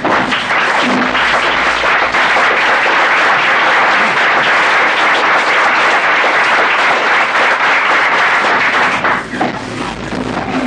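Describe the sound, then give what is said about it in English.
Loud, sustained applause fills the Alaska State Senate chamber as lawmakers welcome the state's governor. Dense clapping continues without a break for about ten seconds, easing only slightly near the end. “Please give a warm Senate welcome to the governor of the great state of Alaska, Sarah Palin.”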